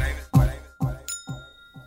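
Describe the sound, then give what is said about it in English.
Wind chime sound effect: a few bright, ding-like struck tones, each ringing and fading before the next, with one clear, sustained high shimmer midway through. “Bring in those wind chimes.”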